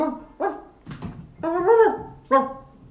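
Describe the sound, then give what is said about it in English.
A dog barks a few times in short, mid-pitched bursts. One bark stretches into a longer, whining yelp, and no other sound accompanies them. “Oh, he's barking.”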